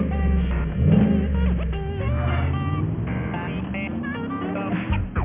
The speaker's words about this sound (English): you didn't tell me you had a car like this? What's under the hood, a 5.7 liter Hemi?